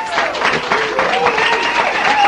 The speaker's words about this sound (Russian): Это аплодисменты вам